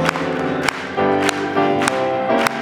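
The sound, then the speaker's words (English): A church audience claps in steady rhythm along to an old-time gospel hymn, with about five sharp claps falling on the beat over loud, sustained music. “Let's just clap it for them.”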